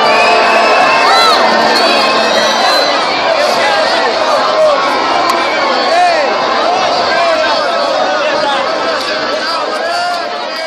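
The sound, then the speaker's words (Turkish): Crowd screaming and cheering on Azpilicueta street in Brazil after Brazil's 2-1 win over Colombia: countless high shrieks, whoops and shouts overlap in a loud, unbroken roar that holds steady throughout and eases only slightly at the very end. “Azpilicueta sokağının çığlıkları bu şekildeydi.”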